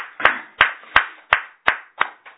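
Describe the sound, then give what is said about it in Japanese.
Clapping celebrates a birthday: seven sharp, evenly spaced hand claps in a steady rhythm, each one crisp and clear with a short decay. No speech is heard. “三又さんのご長男が、まあ、43歳だったかな、誕生日を迎えられましたので、盛大に拍手でお祝い。”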